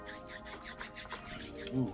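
Hands rubbing briskly together, a faint, quick run of rhythmic dry swishes that repeats steadily for a couple of seconds.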